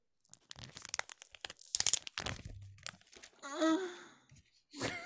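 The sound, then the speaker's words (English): Plastic packaging crinkles and tears as a copy of the comic book Ultimate Invasion issue 4 is opened, with sharp, uneven rustles and crunches, followed by a brief voiced sound and more crinkling. “So here's your ASMR for the week of me opening my copy of issue 4.”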